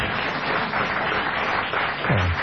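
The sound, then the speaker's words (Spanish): Applause from an audience of many nationalities gathered at an event, a dense, steady patter of many hands that holds at an even level throughout. “Bueno, un saludo para todos. Aplaudámoslo.”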